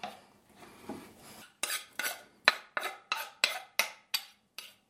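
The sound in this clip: Knife chopping ingredients for Yule bread: a few soft scrapes, then a steady series of sharp, crisp chops at a regular pace, fairly faint and with no voices.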